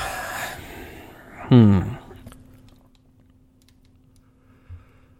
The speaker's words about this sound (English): I'm just watching you yawn. Because I'm bored waiting for you to answer my question.